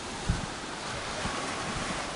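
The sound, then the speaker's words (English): Ocean surf at Cocoa Beach near Cape Canaveral a day before a storm: a steady, broad roar of surf with wind buffeting and a few soft low thumps, with no voices. “since there's a day or so before the storm actually hits, I'm headed to the beach.”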